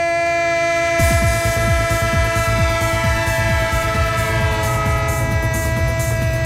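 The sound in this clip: A train rolls along with a steady rhythmic clatter of wheels on rails from about a second in, beneath a sustained, droning horn-like tone that holds throughout; no voices.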